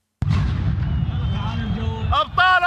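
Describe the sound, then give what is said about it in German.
Gunfire aimed at surrounded protesters in Baghdad, heard in a phone video: a loud sharp crack opens, then heavy rumbling noise carries on, with shouting voices breaking in near the end. “Das Video zeigt, wie in Bagdad auf eingekesselte Demonstrierende geschossen wird.”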